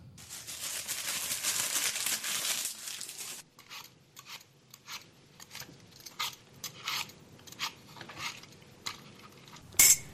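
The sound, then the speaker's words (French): Ham, peas, salt and ants stirred together in a pan: a steady hiss for the first few seconds, then many irregular clicks and scrapes of a utensil against the pan, with a sharp louder clatter near the end. “Quand le jambon commence à brunir, ajoutez les petits pois et un peu de sel. Mélangez bien le tout et ajoutez les fourmis. Mélangez à nouveau le tout pendant quelques minutes”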